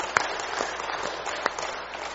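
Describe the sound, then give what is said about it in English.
A church audience claps to celebrate 19 baptisms during a Sunday service. The applause is fairly soft, scattered patter, with a few sharp individual claps standing out above it. “Yeah, that's worth a clap to the Lord.”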